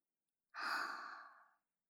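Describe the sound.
A single breath drawn during a guided breathing exercise, soft and airy, lasting about a second and set alone against silence.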